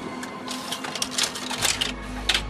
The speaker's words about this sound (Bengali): অভিজিতের কি মনে হতেই মৈনাকের ছবিটা নিয়ে জেরক্স মেশিনের সামনে গিয়ে প্লেটেন্ট গ্লাসের ওপর রাখল স্ক্যান করে কন্ট্রোল প্যানেলে গিয়ে প্রিন্ট সুইচটা টিপে দিল